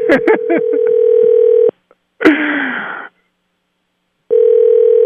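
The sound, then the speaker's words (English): A telephone dialing a call: a steady dial tone broken by quick touch-tone beeps, then a short noisy burst, a pause of silence, and the steady tone returning. “We're calling him.”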